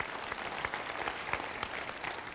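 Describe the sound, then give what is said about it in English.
Audience applause during a church sermon: a dense, steady patter of many hands clapping, fairly faint and even throughout. “You can clap for that.”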